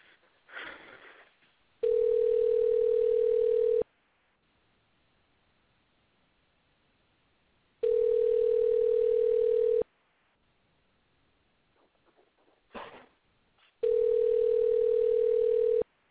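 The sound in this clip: A telephone call placed through a switchboard gives three long, steady ringing tones, each about two seconds, evenly spaced, with near silence and faint noise between them.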